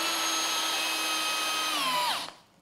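A cordless drill-driver running during a blind test: a steady, high-pitched motor whine that holds, then drops in pitch and winds down near the end, with no talk.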